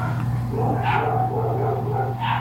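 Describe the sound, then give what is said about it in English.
Dogs barking, with short yips and whimpering sounds rising in a couple of brief bursts over a steady low hum, at moderate loudness without talk. “Dogs aren't happy about it. The dogs are not happy, no.”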